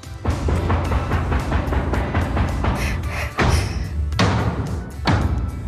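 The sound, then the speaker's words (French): Theatre knocks announcing the start of a performance: a rapid run of dull wooden thumps, then three heavier, evenly spaced blows. “On frappe les trois coups dans Ça vaut le détour ce soir Eh oui, parce qu'on va au théâtre maintenant.”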